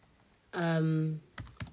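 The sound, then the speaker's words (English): A couple of sharp computer keyboard key clicks follow a short, sustained voiced sound. “But now I'm going to type that up because I'm really paranoid”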